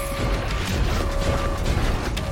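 A robot exploding in the video game Wolfenstein The New Order, a dense rumbling crash with metallic clanking that stays fairly constant for about two seconds rather than hitting as one sharp blast.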